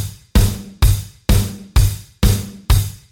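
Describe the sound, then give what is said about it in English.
A four-on-the-floor drum beat puts a bass drum hit on every beat, making a steady run of six punchy, evenly spaced thumps. A shimmering cymbal wash rings above them. “When you add the extra bass drum hits, it sounds like this.”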